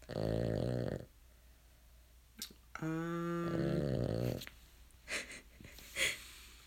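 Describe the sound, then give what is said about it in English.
A dog snoring, with two long droning, rasping snores separated by a quiet stretch and followed by a few faint snorts and breaths. “You can hear my dog snoring in the background.”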